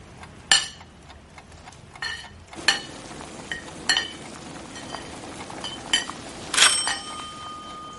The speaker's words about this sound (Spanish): coge un trapo y abre la tapa de una olla que hay en el fuego. Luego echa las verduras dentro y las hierve.